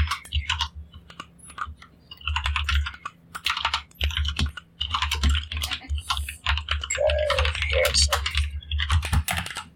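Fast, irregular clatter of typing on a computer keyboard, with many light key clicks in dense runs and short pauses between them.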